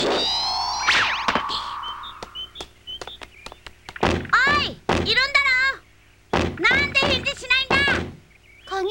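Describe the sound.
A few heavy thunks and knocks sound as a door is forced open, followed by people talking over further light impacts.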